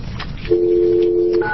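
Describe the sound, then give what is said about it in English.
Telephone tones sound as a call is dialed during a public meeting. A steady two-pitched tone holds for about a second, then a different, higher tone begins. “I have her standing by the phone, so could we do A-Rock first, please? We'll do the call from A-Rock first.”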